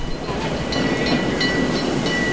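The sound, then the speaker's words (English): A tram glides past in busy street traffic, giving a steady broad rumbling wash with faint high whining tones. “Dust and smoke drifts across, traffic streams along, and a tram glides past.”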